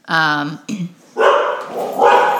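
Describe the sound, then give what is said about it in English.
A female dog barks at people walking in the neighborhood: a drawn-out, tonal bark followed by a short gap, then rougher, noisier barking at moderate volume. “our dog, everyone, makes a special appearance. She's keeping us safe from the people walking in the neighborhood.”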